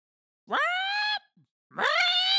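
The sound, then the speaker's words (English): A voice imitates a mirror creature's screeching siren with two loud, sustained, high wails. Each rises in pitch at its onset, and a short gap separates them. “and it lets out a screeching siren”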